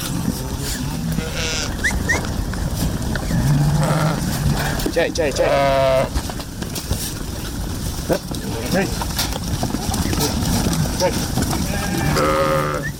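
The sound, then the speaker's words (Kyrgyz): A flock of about 500 sheep bleats on a mountain pasture, with several loud, wavering calls rising over a steady noisy background and people talking throughout. “Бияк койлорум меники. Азыр канча коюңуз бар? 500 баш бар.”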